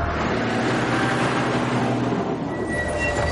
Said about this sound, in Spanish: El autobús circula por la carretera junto al acantilado. Tomás corre hacia ella. El autobús pasa justo por delante de él.